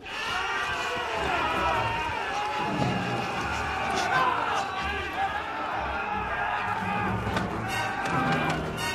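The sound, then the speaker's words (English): A crowd of actors playing natives runs and chases down stairs and across a colonnade on a temple film set, with a dense rush of footfalls and shouting voices throughout. “The natives will be chasing Indy and his group out and down the stairs and across a colonnade here.”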